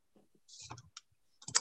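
Keystrokes and clicks on a computer keyboard as a search is typed in: a few faint, scattered taps with pauses between them, then a denser cluster of clicks at the end.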